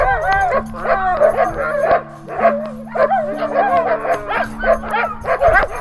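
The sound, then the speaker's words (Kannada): Several dogs in a nearby field bark and yip, a busy stretch of repeated barks layered over sustained steady background tones. “ಅಲ್ಲೇ ಪಕ್ಕದ ಹೊಲ ಗದ್ದೆಯಲ್ಲಿ ಕೆಲವು ನಾಯಿಗಳಿದ್ವು ಏನಪ್ಪ ಇದು ಕೊಳನ್ ಶಬ್ದ ಕೇಳ್ತಿದ್ಯಲ್ಲ ಅಂತ ಹುಡುಕೊಂಡು ಬಂದ್ವು”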